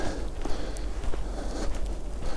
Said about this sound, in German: der Wald halt auch immer so ein bisschen uneben ist, wie man es vielleicht auch hört jetzt an den Schritten